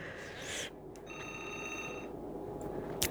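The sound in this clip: A telephone rings with an incoming listener call to a radio studio: one steady electronic ring tone lasting about a second, faint above low background noise.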